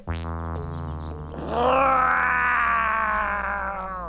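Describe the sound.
An angry cat yowls in an animated film scene, a long, wavering, harmonic caterwaul that swells louder partway through and holds, with music playing underneath.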